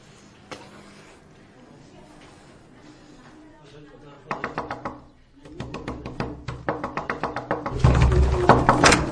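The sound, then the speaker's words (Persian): Knocking on a door: repeated bursts of sharp, hard raps that grow louder and more insistent, mixed with people speaking. “میرم دنبالش محسا باز کن در رو محسا باز کن در”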